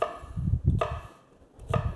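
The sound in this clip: Knife chopping an onion into chunky pieces on a board, a few dull thuds with sharp cutting clicks in an uneven rhythm, separated by brief pauses.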